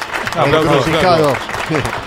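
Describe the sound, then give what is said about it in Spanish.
Applause in a studio rises into a dense, steady wash of clapping, and a voice calls out loudly over it throughout. “Un aplauso, flaco.”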